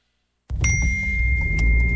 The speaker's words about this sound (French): Ding! C'est le panneau qui me parle. Bon, là, j'ai réussi à attirer ton attention. Excuse, c'est ma blonde qui me textait pour que je fasse une commission.